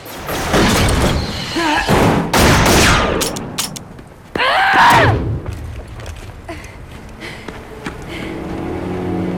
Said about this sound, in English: Close it! The slam boss returns fire, then the hatch closes and he slides down the ladder as Kira advances outside.